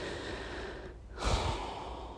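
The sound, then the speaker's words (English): A long, deep breath is drawn alone as a soft, breathy rush of air that swells into a stronger, fuller burst partway through. “it only takes a moment, a long deep breath”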